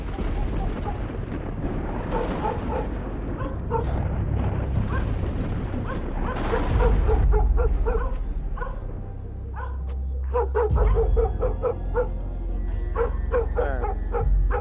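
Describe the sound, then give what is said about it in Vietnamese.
Village dogs barking wildly: many overlapping, frantic barks pile on one another without pause, over a heavy low rumble that stays loud through the whole stretch. “Bầy chó ở trong làng lúc này tựa như phải động, nó cắn lên điên dại.”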